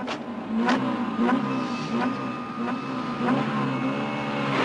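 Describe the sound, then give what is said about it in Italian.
Car engines revving as the cars start up and drive off, a continuous droning tone with repeated surging sweeps in pitch and no talk. “Dobbiamo prendere le macchine. Perché no? Sì, buona idea. Ma sì, prendiamo queste macchine.”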